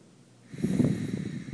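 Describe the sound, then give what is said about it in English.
A slow, deep inhalation during a guided breathing meditation. A brief quiet start gives way to a steady, breathy rush of air that swells and holds for about a second. No talk over it. “We go to the breath. And inhale again.”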